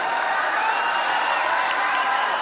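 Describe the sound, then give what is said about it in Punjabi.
Crowd applause and cheering at a kabaddi match, a dense, steady roar of clapping and voices that holds at an even level from start to finish. “ਇੱਕ ਵਾਰੀ ਜ਼ੋਰਦਾਰ ਤਾੜੀ ਆਪਣੇ ਆਪਣੇ ਨਾਂ ਦੇ ਨਾਲ।”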